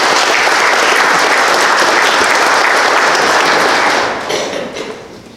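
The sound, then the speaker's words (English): Dense applause from a church audience roars loud and steady, then drops off after about four seconds into a few trailing claps. “time to clap for us. So let's hit it. Let's hit it.”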